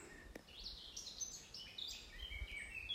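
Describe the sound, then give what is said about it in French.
Birds sing high in the treetops of a forest: several faint, high chirps and short trills scattered over a soft low rumble. “tous ces oiseaux là qui sont au sommet de ces branches. Dans la forêt où je me trouve aujourd'hui,”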